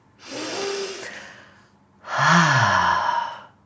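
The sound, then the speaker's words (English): One person takes a deep breath: a soft, steady inhale, a pause, then a louder, longer sighing exhale with a faint voiced tone, with nothing else heard. “Let's take a breath.”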